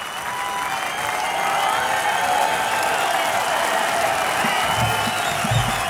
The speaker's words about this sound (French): Le public de la Côte d'Azur en redemande, comme vous pouvez l'entendre.